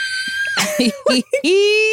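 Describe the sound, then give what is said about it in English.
A voice imitates fans screaming at a concert, with high, sustained squealing tones at the start and again at the end, broken by short vocal bursts in between. “and they're just screaming”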